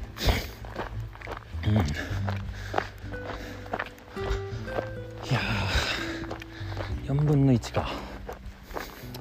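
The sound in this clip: A hiker's footsteps fall at a steady walking rhythm on a long-distance trail, about 350 kilometres into the route, under continuous talking.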